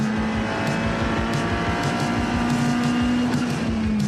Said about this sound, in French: À quelle vitesse je double l'Audi GT4. Je l'ai laissé sur place. Ah, l'auto est vraiment géniale à conduire.